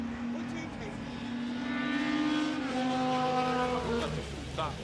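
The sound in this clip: Racing cars approach on a track with a roaring, whining engine note that climbs in pitch as they near. The sound stays loud and continuous throughout.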